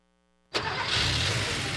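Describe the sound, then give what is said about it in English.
An engine starts up and keeps running on Castrol Edge motor oil: a sudden loud catch, then a steady, even roar that holds level to the end, with a low faint hum before it starts. “That's the sound of an engine running on the strength of Castrol Edge.”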